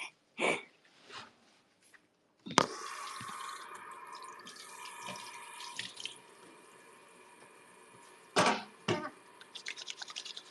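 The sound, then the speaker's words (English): Running water from a tap as hands are washed at a sink: a steady rush of water with a few louder splashes and knocks near the end, and no talking. “let me wash up first”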